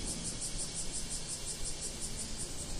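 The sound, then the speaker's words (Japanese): A bear cicada calls on a summer morning: a high, rhythmic pulsing buzz repeats about a dozen times, faint over a steady background hiss. “熊蝉の声聞こえますか？”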